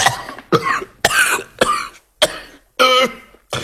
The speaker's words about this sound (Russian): яростно закашлялся